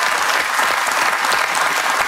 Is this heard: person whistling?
no